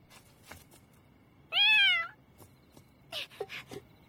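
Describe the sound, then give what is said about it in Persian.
A black cat lets out a single loud, drawn-out meow lasting about half a second. The harmonic cry stands out clearly against otherwise quiet surroundings. “چطور ممکنه گربه سیاه؟ کجا داره میری؟”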